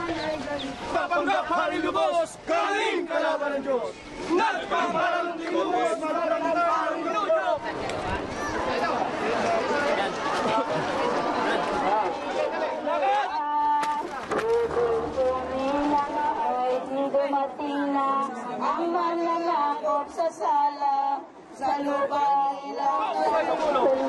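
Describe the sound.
Crowd at a crucifixion reenactment, a continuous babble of many voices talking and calling out at once, fairly loud and unbroken, with occasional louder shouts rising above the murmur.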